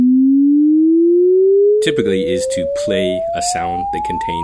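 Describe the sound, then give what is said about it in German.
A synthetic sine-sweep test tone for acoustic room measurement glides smoothly and steadily upward in pitch. It plays alone at first, then continues under talk. “Dafür haben sie allerdings keinen schönen Chorgesang genutzt, sondern ein synthetisches Geräusch.”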